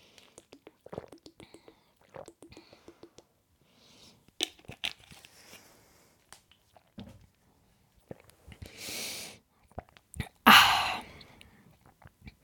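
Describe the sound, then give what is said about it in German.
Someone taking a sip of a drink: quiet, close mouth clicks and smacks, then a brief slurping gulp and a louder swallow near the end. “Ich trinke jetzt einen Schluck und hoffe, dass ich dieses blöde, dämliche Himbeerkörnchen loswerde.”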